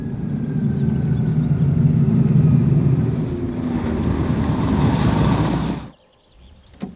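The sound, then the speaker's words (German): A bus from Amiens pulls into its terminal stop, its engine droning low and steady, then a sharp hiss of air brakes near the end before the sound cuts off abruptly into near silence. “Zum Glück hatte wenigstens der Regen aufgehört, als ich zur Endhaltestelle ging, um den Bus aus Amiens zu erwarten.”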